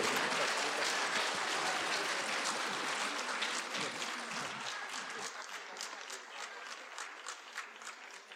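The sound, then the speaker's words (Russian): Audience applause fills an awards ceremony and gala concert: dense, steady clapping that gradually thins and fades toward the end. “Аплодисменты ваши!”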